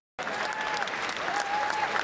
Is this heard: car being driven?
no